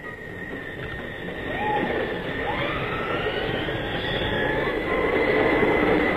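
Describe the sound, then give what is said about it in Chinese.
An express train sound effect of a departure and arrival: a continuous rolling rumble that builds gradually in loudness, with thin wheel-squeal tones gliding over it and no voices. “好极了，我就下命令，发车了。”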